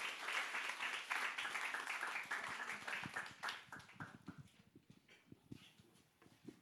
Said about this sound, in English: And so let's put our hands together and welcome Mark and Yen.